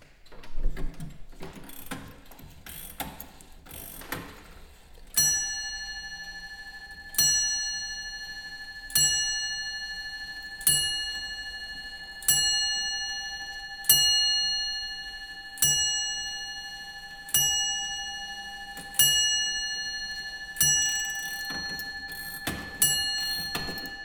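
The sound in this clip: Rapid ratchet clicks from winding a stopped longcase clock from around 1700 fill the opening seconds. A long series of evenly spaced, ringing bell strikes follows, each one fading before the next.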